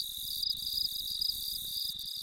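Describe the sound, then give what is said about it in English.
Katydids and crickets chirp on a warm summer night in the Ozarks, a continuous high-pitched shrill trilling that is steady and faint throughout, with no voices. “warm nights spent with the chirping of katydids and crickets”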